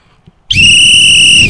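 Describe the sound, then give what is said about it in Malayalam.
A referee's whistle signals a football kick-off with a single long blast. The shrill, steady tone holds for about one second at full loudness, then stops. “ദാ റഫറിയുടെ whistle മുഴങ്ങിക്കഴിഞ്ഞിരിക്കുകയാണ്, പന്ത് ഉരുണ്ടു തുടങ്ങിയിരിക്കുകയാണ്.”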